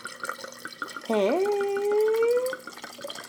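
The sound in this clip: Wine poured from a bottle, a smooth liquid tone that rises steadily in pitch for about a second and a half before fading, with people talking faintly around it.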